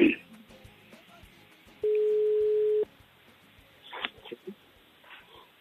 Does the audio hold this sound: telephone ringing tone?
yes